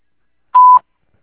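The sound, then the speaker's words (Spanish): A voicemail recording tone: one short, loud, steady beep at a pure mid-high pitch lasting about a quarter second, alone against silence. “Si desea, deje su mensaje en la casilla de voz. Desde el tono, grabe su mensaje.”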